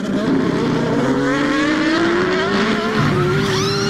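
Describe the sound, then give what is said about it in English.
Race cars, prototypes and GT machines at an endurance race, roar past in a continuous, loud engine drone whose pitch climbs steadily as they accelerate, with no talk. “Endurance racing hits a whole new level at the Motul Sports Endurance Grand Prix featuring IMSA”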